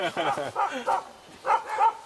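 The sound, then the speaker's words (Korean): Yelping puppy, sick and being rescued, letting out several high, whimpering yips in short bursts, with people talking alongside. “애가 막 깽거리면서 내려오는 것 같아.”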